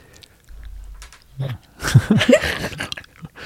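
Biting into and chewing a piece of chocolate: a low rumble first, then a run of crisp crunching bites and moist chewing sounds at an uneven pace, fairly quiet overall.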